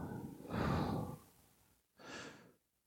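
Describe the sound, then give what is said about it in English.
A deep breath in and then an exhale during a guided breathing exercise. The quiet, airy inhale lasts longer, and after a short pause a briefer breathy exhale follows before silence. “deep breath in, on the exhale,”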